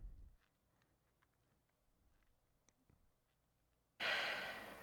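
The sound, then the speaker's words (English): A single breathy exhale of cigarette smoke comes in as a sudden loud rush near the end, after several seconds of near silence. “sorry, I am smoking a cigarette, by the way. Oh, that's all right. So it sounds like I'm sighing. It's just because I'm, like, exhaling.”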